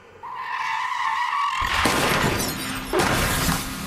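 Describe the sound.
A car skids with a long tire squeal, then crashes with a burst of shattering glass, followed by a second impact and more breaking debris.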